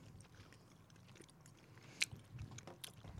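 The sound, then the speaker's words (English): Chewing of soft, sugar-dusted, mildly sour gummies, faint and moist with soft biting sounds and one sharper crunchy click midway. “Oh, these are soft, though. They are soft. They're really soft. Yeah, they're easier to eat.”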